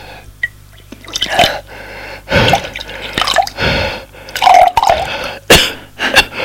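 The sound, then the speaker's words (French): Water is poured from a jug into a glass in several loud, splashy bursts, with drips and pauses between them. “Une cruche d'eau et un verre. Elle remplit le verre.”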